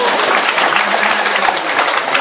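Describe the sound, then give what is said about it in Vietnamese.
Applause fills the whole clip: a dense, steady clatter of many hands clapping together, loud and unbroken from start to finish. “Đó là vỗ tay.”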